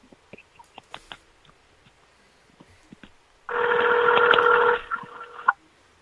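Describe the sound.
A telephone is dialed: a few faint, scattered button clicks lead into a loud, sustained electronic tone about a second long, then softer tonal beeps trail off.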